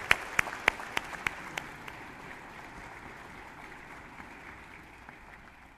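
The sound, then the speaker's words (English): Congregation applause at Landmark Church welcoming a guest speaker: a few sharp, distinct claps at the start, then faint scattered clapping that gradually dies away. “So would you give Larry a big hand and welcome him to Landmark today?”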